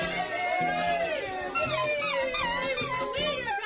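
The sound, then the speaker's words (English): A dachshund howls and whimpers in long, wavering, high cries that slide up and down in pitch. The cries are steady and continuous over a low background sound, and no distinct sharp barks stand out. “do you know what that sound is? That's my wiener dog. He wants to come out and play with you.”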